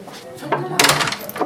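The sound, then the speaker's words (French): A badge-operated door opens and closes with a brief click and a thud while people talk. “Tu vas badger ? Je badge. Ça fait peu de temps qu'on badge. On avait simplement besoin que la porte puisse se refermer assez souvent.”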